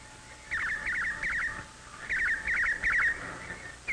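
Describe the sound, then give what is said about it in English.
Male redwing singing: bright, rapid warbled notes repeated in quick trills, coming in two longer phrases separated by a short pause and then a brief final burst, fairly faint and heard alone without talk. “The male redwing selects the nesting area and sings sweetly to persuade a female redwing that he'll be a good husband and a thoughtful provider”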